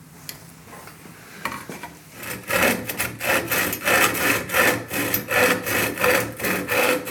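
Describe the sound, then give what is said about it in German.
A hand saw cuts a wooden board during a woodworking lesson. After a quiet stretch of light handling noise, steady rhythmic back-and-forth rasping strokes begin and keep an even pace to the end. “Und du schneidest dann das Brettel ab, bitte, mit der Handsäge, wie du das schon gelernt hast.”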